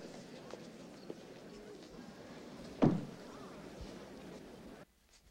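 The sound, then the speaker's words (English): A door being closed behind people entering a room, heard as a single dull thud partway through over a low, steady background hiss that drops away near the end. “and then closes the door behind them”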